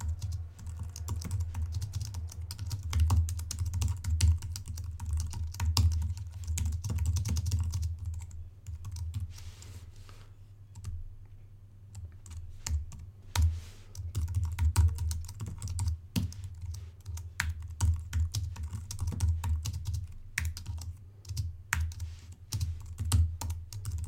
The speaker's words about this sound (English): we want to make sure it matches what I'm going to type here on screen.